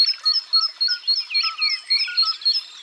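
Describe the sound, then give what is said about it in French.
A great tit sings a bright, high, rhythmic song, repeating a short two-note phrase many times at a brisk, steady pace. The song is clear and alone, with no voices. “voici une mésange charbonnière, avec son chant qui teinte gaiement, plein d'entrain.”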